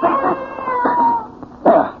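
A cat yowls in a few loud, drawn-out wavering cries, the last one short and sharp.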